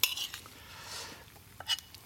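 Plate and cutlery clink as a plate is taken: a few faint, light metallic chinks, with a sharper one near the start and another toward the end. No voices are heard.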